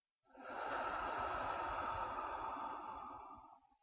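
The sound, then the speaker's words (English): One slow, soft breath lasts about three seconds, exhaled as a gentle sigh through the mouth during a relaxation exercise. The airy sound is quiet and heard alone. “Do that one more time. Breathe in and out.”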